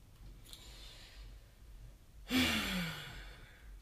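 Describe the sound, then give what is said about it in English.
Heavy breathing: a faint short breath, a pause, then a loud, long, sighing exhale that trails off, with no talk. “Right, breathing heavy.”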